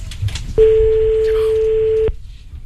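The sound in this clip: A telephone ringing tone after a number is dialed: one steady, loud, unbroken mid-pitched tone lasting about a second and a half, starting and stopping abruptly.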